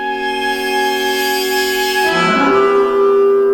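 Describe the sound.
A short musical fragment from a film score cue, with sustained held tones that shift into a new, denser chord about two-thirds of the way through, loud and steady with no voices.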